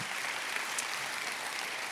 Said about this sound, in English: Come on, church, put your hands together. Glad you're here.